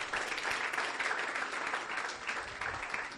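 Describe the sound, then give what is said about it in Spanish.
Audience clapping for a young girl called up at a bilingual gathering, a fairly faint but continuous, even patter of many hands that holds steady throughout. “Clap your hands together for this. Un aplauso a la niña, por favor.”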